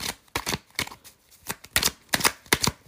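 Tarot cards being shuffled, many quick, crisp riffling bursts in uneven clusters, each a short papery flutter with brief pauses between.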